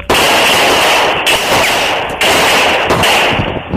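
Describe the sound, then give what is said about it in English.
Gunfire during a police encounter, heard as a loud, harsh and distorted wash of noise that runs almost without a break, with only a few short dips. No clear individual shots stand out. “Shots fired, kid!”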